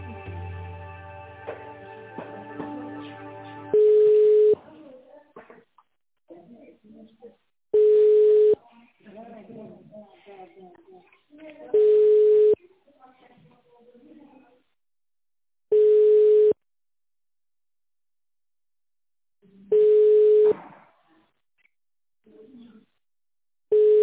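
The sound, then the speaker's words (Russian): Telephone ringback tone on a line as a call is transferred to a manager: steady single-pitched beeps about a second long, recurring roughly every four seconds, with faint voices and noise in the gaps. “Так, у нас есть менеджер, давайте я вас с ним соединю.”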